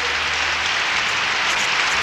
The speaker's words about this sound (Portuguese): Gente nova chegando no Canta Brasil, então. Mais palmas, aplausos.